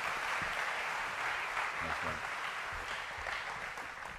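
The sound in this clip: Audience applause at a church campus welcomes the pastor's wife to the stage: dense, loud and steady clapping that fills the whole clip, with some voices mixed in.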